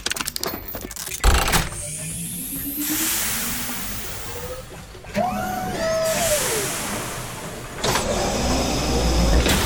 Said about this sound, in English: It's moving! The Magma Trash Destroyer lives! Out of the way! It's coming right for us!